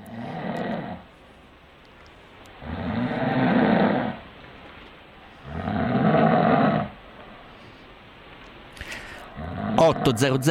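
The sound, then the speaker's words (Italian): A person snores in three long, loud, rasping breaths separated by quiet pauses, followed by a short stretch of talking at the end. “Dico, ma ti pare che ho russo? Ma figurati, i vecchi russano. Ma in effetti facevo esattamente questo.”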